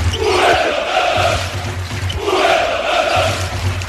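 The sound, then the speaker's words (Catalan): Football fans chanting the club name Fuenlabrada, thousands of voices repeating the same rhythmic call in loud, regular cycles that come back about every two seconds. “ens van rebre d'una manera com si van estar com 3 minuts cantant Fuenlabrada, Fuenlabrada, Fuenlabrada. Mira, vol sentir-ho?”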